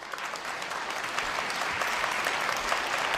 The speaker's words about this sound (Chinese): 掌声鼓励，掌声啦，掌声鼓励。